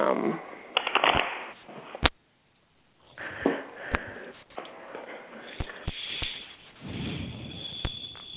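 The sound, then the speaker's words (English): A deck of cards is shuffled for a card reading, heard as faint bursts of brushing and sharp clicks that come in a few uneven clusters with short quiet gaps between them. “All right. I'm going to shuffle the deck.”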